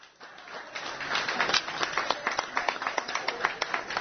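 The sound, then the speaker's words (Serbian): Applause fills the arrivals hall of Belgrade's Nikola Tesla airport as the women's basketball champions appear after returning from Valencia. Dense, steady clapping swells early and continues with many sharp claps throughout. “Čujete aplauze, poštovani slušalci, i po tome znate da su se naše košarkašice pojavile u holu ovde na aerodromu Nikola Tesla.”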